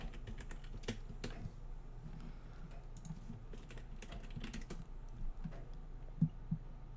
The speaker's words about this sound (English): I just want to type it in.